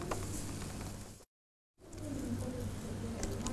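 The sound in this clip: Sand pours into a container as a steady, grainy hiss, which breaks off into a brief silent gap and then resumes.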